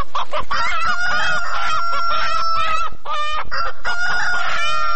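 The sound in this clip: Chickens given as aid to rural families cluck and squawk in a loud, dense, continuous stream of harmonic calls and cries, with no talk.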